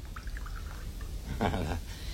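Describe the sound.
Water is poured into a glass of homemade absinthe, a soft, short trickle that swells briefly into a fuller pour before fading, with no talk over it.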